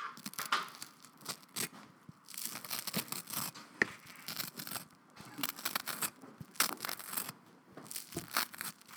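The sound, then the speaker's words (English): Fresh toast crunches faintly in many dry, crackly bites and crumbles, with irregular bursts spread evenly throughout. “Ooh, that was the sound of some fresh toast.”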